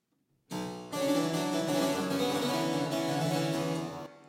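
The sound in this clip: Louder harpsichord passage on the lower manual with two sets of strings sounding at once: a bright, overtone-rich plucked texture that opens with a single note and then a chord, with continuous busy notes that fade at the end.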